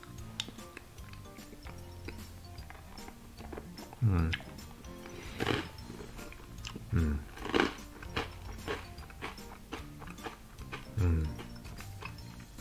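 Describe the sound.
Mouth sounds of licking and biting a miso-flavoured rice cracker made with Fukaya leeks from Saitama by Kitayama Seika. Faint wet clicks are scattered among several louder, sharper crunches.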